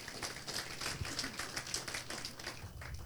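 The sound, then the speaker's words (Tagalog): A church audience claps for the Lord during a sermon with moderate, fairly even, continuous clapping. “Pwede ba natin palakpakan ng Panginoon?”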